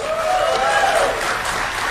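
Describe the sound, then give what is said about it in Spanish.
A rally crowd applauds in an impromptu applause poll for J.D. Vance: thick, continuous clapping at a steady level throughout. “improvisando entre los asistentes un sondeo de aplausos entre su vicepresidente y su secretario de Estado. Okay, let's go. You ready? Who likes J.D. Vance?”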